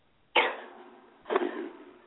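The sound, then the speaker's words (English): A single person sneezes: one abrupt, loud burst that fades quickly, followed about a second later by a softer, more drawn-out second burst, with quiet before and between. “I'm sorry, I had to sneeze right when you asked me that.”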